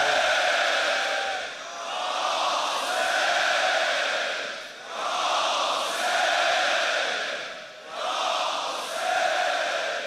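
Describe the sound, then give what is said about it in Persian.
A mourning crowd with raised hands shouts a religious invocation in unison, loud voices rising in a series of long, sustained calls separated by brief dips. “به نیت همه اونها دست ها رو بیاریم بالا، بلند بگین یا حسین.”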